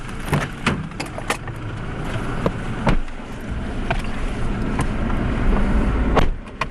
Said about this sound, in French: Au départ de Kitwe, nous sommes quatre dans un véhicule.